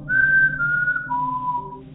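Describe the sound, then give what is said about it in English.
A voice whistles to imitate a three-tone whistle heard coming from the woods: three long, steady notes, each stepping down in pitch, clear and alone. “I heard a whistle coming from the woods. It was just kind of a three-tone, just sort of like a,”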